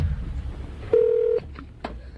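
Touch-tone keypad beeps as a telephone number for a business is dialled: one steady, sustained tone, then a shorter beep after a pause, heard over low background hiss.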